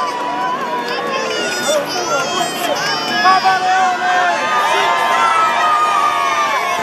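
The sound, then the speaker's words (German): Jubilant cheering of the faithful crowd on St. Peter's Square in Rome as the Pope rides through greeting people: a sustained roar of shouts, with high calls and children's voices rising above it. “Wir hören hier weiter im Hintergrund noch den Jubel der Gläubigen, während der Papst gerade noch weiter auf dem Petersplatz in Rom fährt, die Gläubigen einzeln begrüßt.”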